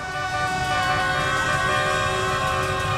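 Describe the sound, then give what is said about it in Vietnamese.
Convoys of vehicles parade through city streets at night, celebrating a national team's championship win. Sustained horns blare and overlap in a dense, continuous wall of honking over rumbling traffic, loud and unbroken throughout. “Càng về khuya, dòng người đổ ra đường thì càng đông. Những đoàn xe nối tiếp nhau diễu hành, sắc đỏ phủ kín các tuyến phố”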